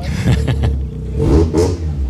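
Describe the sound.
A yellow RX-7 pulls out, its engine giving a short, throaty rev with a couple of swelling bursts over a low rumble.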